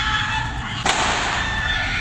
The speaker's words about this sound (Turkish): Bağırdı, 2-3 el silah sıktı.